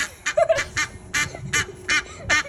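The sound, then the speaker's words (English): Duck quacks: a run of harsh, nasal calls repeating at a fairly steady rhythm about half a second apart, each short and fairly loud over light background noise. “thought they were just cute little ducks. Uh-oh. Here they come.”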